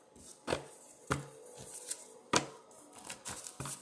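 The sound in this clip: Oracle cards drawn from a jar give a series of sharp taps and papery rustles: several distinct clicks, then a quicker cluster of soft scrapes near the end, with no voices.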